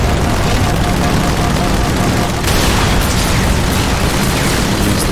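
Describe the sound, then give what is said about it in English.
Minigun fire in a video game, a dense, unbroken roar of rapid shots that runs loud the whole way through, with a brief dip midway. “Man, this minigun is just really useless.”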